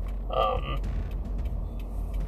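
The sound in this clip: A car driving, heard from inside, gives a low, steady cabin rumble throughout, with one brief creak near the start.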